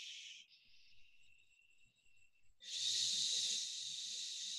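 Long shh exhales through pursed lips during a breathing exercise that draws in the front abdominals: a short hiss, a fainter steady stretch, then a loud, sustained breathy shh running to the end.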